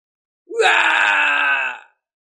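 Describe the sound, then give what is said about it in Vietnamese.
An agonized scream from elders undergoing heavenly tribulation: a single loud, sustained cry lasting about a second and a half, rising sharply at the onset and then holding a strained, harsh pitch before cutting off. “Tiếng kêu thảm thiết truyền đến, bọn họ cả đời đều không trải qua lôi phạt.”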